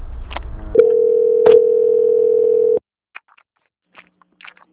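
A steady telephone tone sounds after the asterisk key is pressed on a phone keypad. A single mid-pitched tone holds for about two seconds with a brief click partway through, then cuts off into near silence with faint scattered sounds.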